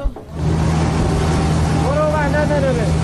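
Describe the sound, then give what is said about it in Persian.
Engine of a fuel tanker truck that came to help a stranded Red Crescent vehicle on a flood-hit road: a loud, constant low drone after a brief quieter start, with a voice heard briefly over it. “این صدای سوخت بریست که به کمک ماشین هلال احمر آمده”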